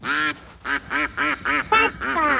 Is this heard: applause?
no